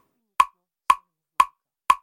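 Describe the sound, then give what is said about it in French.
Four even metronome ticks, sharp dry clicks about half a second apart, pacing dancers in a choreographic piece. Nothing else is heard. “ce qu'on entend, c'est le bruit du métronome dans les composition chorégraphique de Noé Schkoll”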